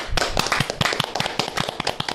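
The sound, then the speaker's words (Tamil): Hand clapping from a small gathering rewards the winning quiz team, which scored 210 points. Many distinct, irregular claps overlap in a quick, uneven patter that stays moderately loud throughout. “மிக நீண்ட கரவொலியை அவருக்கு பரிசாக தாருங்கள்.”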